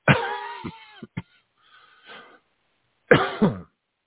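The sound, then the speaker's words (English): Coughing from one person: a few sharp, harsh coughs in quick succession, a pause with faint rustling, then one more rough cough with a throat-clearing rasp. “damn it, I haven't coughed in fucking a week.”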